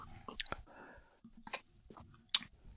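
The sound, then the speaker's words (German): Soft sips and wet mouth sounds while tasting a raspberry-brewed sour beer: a few short, quiet slurping and smacking bursts separated by near silence. “Ich nehme jetzt mal ein Näschen und man riecht schon ein bisschen die Säure von dem Bier. Und ich probiere es jetzt mal.”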